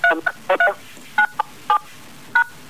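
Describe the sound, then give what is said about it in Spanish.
Telephone keypad dialing tones come as several short, clear electronic beeps of differing pitch, spaced unevenly with brief gaps between them. “se escucha como si estuvieran tipeando un teléfono, ¿puede ser?”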